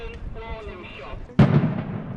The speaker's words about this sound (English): Second warning shot coming up. Second warning shot.